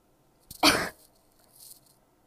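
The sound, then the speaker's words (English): A single sharp, harsh cough from someone with a peanut chocolate candy stuck in their throat. One loud burst is followed by quiet. “Sorry, you guys, I just ate a peanut M&M and it just got stuck in my throat.”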